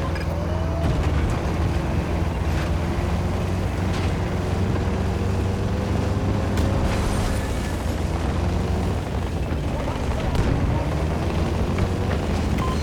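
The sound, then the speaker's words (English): Steady, loud roar of sandstorm wind in a military-style video game, a dense continuous rush with a low droning undertone that holds level throughout, with no voices. “Sandstorm is cutting off our visuals.”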